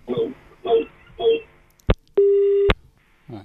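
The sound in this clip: Telephone line tones from an incoming call to a phone-in farm radio programme: after speech ends, a brief blip is followed by a steady, mid-pitched tone lasting about half a second, then another voice begins.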